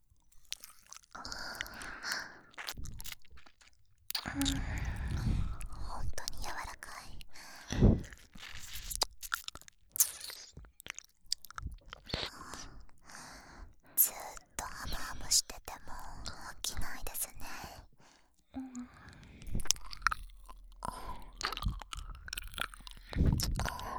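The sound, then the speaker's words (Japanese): Whispered ASMR mouth sounds of nibbling a soft earlobe: many quiet wet clicks, chewing-like nibbles and small crunchy bites mixed with breathy whispering, irregular and close throughout. “先生の可愛くて柔らかい耳たぶ、いただきます。”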